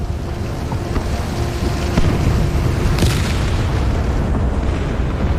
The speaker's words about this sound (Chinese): 垂死者的呻吟与惨叫混杂着子弹的尖啸和炮弹的轰鸣。